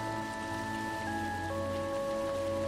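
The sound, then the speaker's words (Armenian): Rain falls as a steady, continuous hiss of moderate loudness, with faint sustained tones beneath and no voices. “Անձրև”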